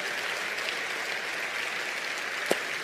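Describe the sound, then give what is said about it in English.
Audience applause welcomes an online campus at a multi-location gathering. A soft, even wash of clapping holds throughout, with one sharp click near the end. “So at all 5 of our locations, will you do me a big favor, put your hands together and just welcome them in today?”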